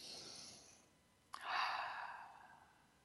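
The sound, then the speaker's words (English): Deep breaths taken during a guided visualization exercise: a soft, breathy rush trails off, then after a short pause a fuller, louder breath swells and slowly fades, with no talking. “I want you all to take a couple of deep breaths. Good, again.”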